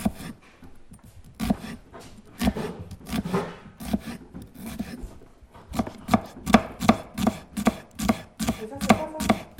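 A knife chops onions coarsely for a mincing machine, with many quick, rhythmic blows on a cutting board that become louder and more regular in the second half.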